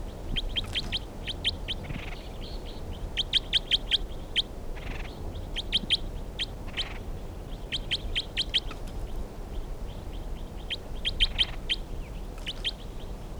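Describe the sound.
Birdsong in several separate bursts of quick, high chirps and trills, with pauses between the phrases. A low, steady background rumble runs underneath, and no one talks.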